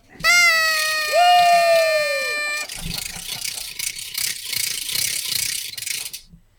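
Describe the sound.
Party noisemakers at a studio celebration with hats and cake: buzzing horn blowers sound first, a second lower horn overlapping the first, then a rattling ratchet clacks rapidly and steadily for several seconds.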